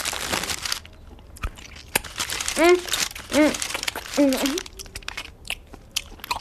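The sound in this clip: Crunchy biting and chewing of cookies and liquorice snails, with crinkling, in bursts of varying loudness broken by a few short voiced sounds.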